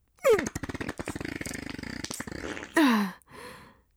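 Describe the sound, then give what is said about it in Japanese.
A long, sputtering fart: a rapid buzzing run of pulses, with a moaning voice sound before and after it. “ほら、臭い臭い、おなら臭い、ハエも殺せる激臭おならですよ。”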